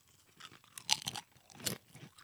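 Crunching of black bean and garlic flavored triangle chips, a wheat-based snack, while being chewed. There are a few faint, crisp crunch bursts, with the sharpest near the middle and another later on, over quiet background.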